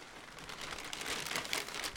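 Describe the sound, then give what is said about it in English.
Crinkling of a plastic bag being opened on an office desk, a dense, continuous rustle that runs the whole clip and grows slightly louder in the second half. “Fresno City Council member Miguel Arias opens up a plastic bag that's been sitting on his office desk”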